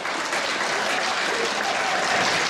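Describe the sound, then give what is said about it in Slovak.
Audience applauding in a spa concert hall in Nimnica before a music performance, a thick, continuous patter of many hands clapping at a steady, moderate level throughout. “Ľudia už tlieskajú.”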